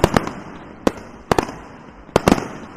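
New Year's Eve fireworks crack in sharp, loud bangs, some arriving in quick pairs or clusters and others spaced apart, over a low rumbling background.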